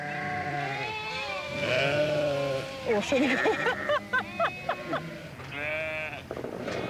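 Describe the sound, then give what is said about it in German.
Sheep bleat at Hohwachter Bucht, several wavering, nasal calls of varying pitch following one another and sometimes overlapping. The bleats are clear and fairly loud throughout. “Geschützdonner und Geblöke. Das gehört zusammen in der Hohwachter Bucht.”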